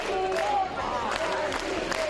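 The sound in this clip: About 500 people gather at Torra's arrival at court: a continuous din of crowd voices, with scattered shouts and cheers rising above it.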